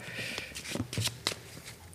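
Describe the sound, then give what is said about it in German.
Playing cards from a Quartett card game being handled and set aside. A few short, crisp rustles and flicks come in quick irregular bursts, fairly faint. “Die ersten beiden Karten packen wir weg, die hatten wir nämlich schon.”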